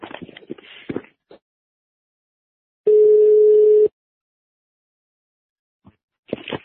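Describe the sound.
Telephone tone heard while calling someone back. One steady, even tone lasts about a second in silence. Brief snatches of a voice come before and after it.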